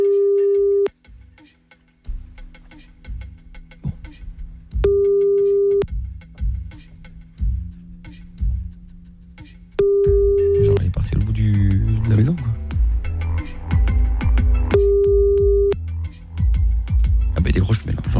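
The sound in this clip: A phone line rings back after a call was cut off: four steady, pure ringback tones at regular intervals, with talk and other studio sounds in the gaps between them.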